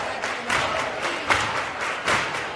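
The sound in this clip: Audience clapping along to a chirigota performance at the Gran Teatro Falla in Cádiz: a dense, steady wash of crowd noise and clapping with recurring louder surges.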